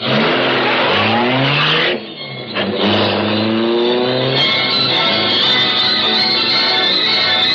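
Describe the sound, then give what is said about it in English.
A super-powered high-speed car revs its engine hard and loud. The engine pitch climbs steadily, dips briefly, then climbs again and holds a sustained high roar. “super-powered Black Beauty high-speed car of the Green Hornet”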